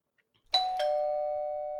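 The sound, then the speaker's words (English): A doorbell rings with a two-note chime, the second tone slightly lower. Both notes ring out clearly and fade slowly, with no voices. “Oh, hey, so that's the doorbell. That means we have a guest this week.”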